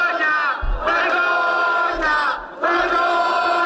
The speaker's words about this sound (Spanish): Esos son los principales lemas en las acampadas de Barcelona, Santiago, Sevilla y entre otros puntos de España. Lo escuchamos en la Plaza Cataluña de Barcelona.